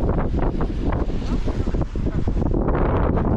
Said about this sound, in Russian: Я рукой, кстати, прикрываю, камеру от ветра.